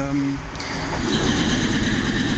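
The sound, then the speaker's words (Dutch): A train starts to move again on a line bound for Przemyśl, Poland, on a chilly day, giving a steady low rumble with some faint tonal hum, under people talking. “En de trein lijkt weer te gaan rijden.”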